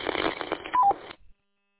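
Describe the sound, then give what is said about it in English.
Roger beep from a handheld radio: a short two-note electronic chirp stepping down in pitch, embedded in thin, band-limited radio noise that cuts off into silence. “And I will turn off the Roger beep.”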